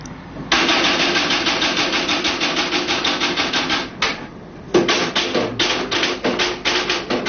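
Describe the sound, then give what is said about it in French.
Rapid typewriter keystrokes as a police commissioner types his report, a dense, regular run of sharp clacks that stops briefly midway, then resumes at the same brisk pace. “C'est un commissaire de police qui interroge une... Qui tape son rapport. Qui tape son rapport.”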